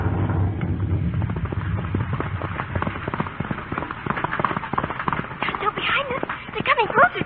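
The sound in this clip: A horse-drawn carriage rattles past with a rapid clatter of hooves and wheels, loud and continuous under shouting men's voices.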